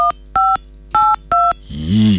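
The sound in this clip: Telephone keypad dialing tones from a phone being used to enter a number: four short, steady two-note beeps with gaps between them, then a different warbling sound takes over.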